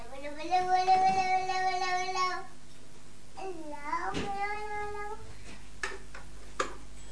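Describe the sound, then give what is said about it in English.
A cat meows in two long, drawn-out, wavering calls, the first louder and longer, separated by a short pause, with a couple of faint sharp ticks afterwards. “Leave the cat alone”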